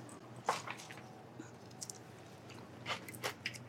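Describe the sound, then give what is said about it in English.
Someone chews a bite of food, quiet, moist clicks and soft crunchy squishes coming in a few small clusters, with no talking. “You want to grab a bite? See if you like it?”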